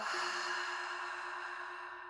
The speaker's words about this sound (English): Big breath in, fill up. Open mouth, let it go.